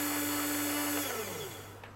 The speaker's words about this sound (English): The drill is now in contact with the surface of the sample, and we're ready to drill the first increment and take the first set of strain readings.